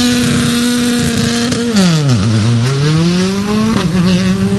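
A rally car engine revs hard at the start of a timed stage, a loud continuous roar that dips sharply in pitch midway and then climbs back up, with a brief surge near the end.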